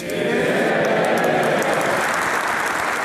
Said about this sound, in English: He was greeted with a standing ovation as he appeared on Zoom to address the House of Commons.